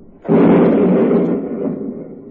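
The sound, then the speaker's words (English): A landmine goes off in a wartime radio drama: a sudden, loud blast, then a heavy low rumble that slowly fades. “I guess I stepped on a mine”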